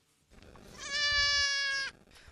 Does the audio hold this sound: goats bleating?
yes